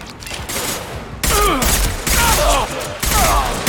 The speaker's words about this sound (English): we're shooting the mercenaries in the back